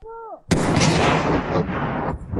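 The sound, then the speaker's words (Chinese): Demolition charge set off by a military blasting team to clear a road obstacle: one sudden, loud explosive crack that becomes a broad, roaring rumble and slowly fades over about two seconds. “爆破小组快速实施定点爆破，强行开辟通路。 3、2、1，起爆！”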